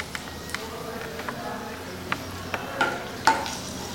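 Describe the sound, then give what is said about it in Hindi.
Kashmiri red chili frying in a pan gives a soft, steady sizzle, broken by many light scraping clicks from stirring at irregular intervals. “ये कश्मीरी लाल मिर्च, और लाल मिर्च को fry कर लेंगे कुछ देर इस तरह से।”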